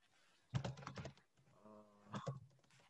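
Faint typing on a computer keyboard during a Google search: a quick flurry of clicking keystrokes, a quieter pause, then a second short burst of keys.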